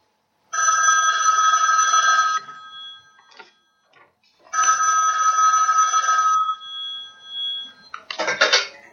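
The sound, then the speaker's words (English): A telephone rings with two long, bright, trilling bell rings separated by a pause, followed by a few brief rattling and clicking sounds; no talk is heard. “That is my telephone ringing, isn't it?”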